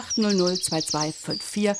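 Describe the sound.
Recorded birdsong: a quick run of high, thin, repeated chirps in several short phrases, with fuller tonal notes between them.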